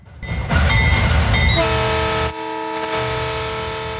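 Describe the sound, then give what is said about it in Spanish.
A train horn signals the start of the Tren Maya: loud rumbling rail noise, then a long, sustained horn blast that holds steady to the end with one brief dip in loudness. “En este momento se percibe la señal. Arranca esta gran y emblemática obra, el Tren Maya.”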